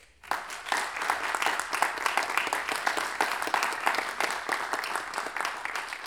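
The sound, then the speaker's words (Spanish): Audience applause at a talk on traditional improvised verse in Rancagua, honoring a late local verse singer: dense, steady clapping that starts abruptly and holds at an even, fairly loud level for about six seconds. “Francisco Astorga, aquí en Rancagua, en cuya memoria, por favor, pido un aplauso.”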